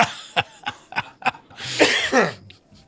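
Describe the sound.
Coughing after a sip of beer went down the wrong pipe: about four sharp, separate coughs in quick succession, followed by a longer, louder breathy vocal exhale that fades away.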